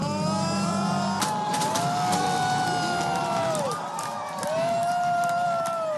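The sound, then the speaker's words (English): Supporters cheer as Ukrainian election exit polls point to Volodymyr Zelensky's landslide victory. A dense, steady crowd roar carries scattered shouts and whoops. “Supporters cheered as they watched the Ukrainian exit polls come in after an apparent landslide victory of Volodymyr Zelensky.”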